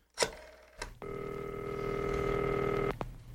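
A telephone is dialed: a few short clicks and beeps, then a loud, steady electronic tone that holds for about two seconds, and a final click as it cuts off.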